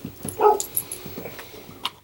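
A puppy barking at a door gives a few short, high yips and whines in separate bursts, one fuller bark early on. The sounds are moderately loud and come with no talk over them.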